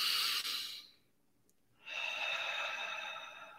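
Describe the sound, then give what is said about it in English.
A deep breath: a long, soft, airy rush of breath, a pause of near silence, then a second longer breath that slowly fades. No talking is heard. “I want everybody to just take a nice deep breath”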